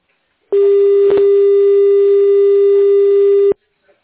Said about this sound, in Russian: Это такой длинный гудок, что ж.